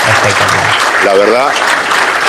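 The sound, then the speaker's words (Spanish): Audience applause at the presentation of a model of a new 100,000-square-metre official grounds: continuous clapping with a voice talking over it partway through. “Yo los veo que aplauden, pero el aplauso es para ustedes”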